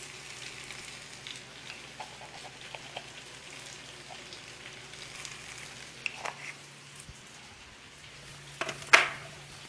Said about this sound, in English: let me add some spices and a little bit of butter. We actually, no, actually I'll be using margarine because I don't have butter.